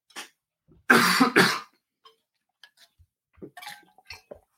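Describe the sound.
Coughing and throat clearing from a person pausing mid-talk, with two loud, harsh bursts in quick succession followed by a few faint, scattered small sounds in near silence.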